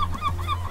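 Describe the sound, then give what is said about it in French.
Seagulls call in a boat workshop in Marseille, a few short, honking cries rising and falling over a steady low hum. “Dans son atelier, on entend les mouettes chanter.”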